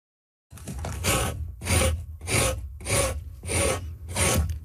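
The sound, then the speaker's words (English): Six rhythmic rasping strokes of a tool scraping a moose hide, each a broad, even scrape with a short pause between, steady and loud with nothing else heard. “That is the sound of scraping a moose hide. And it's never a lonely sound. Increasingly, it's one sound among many.”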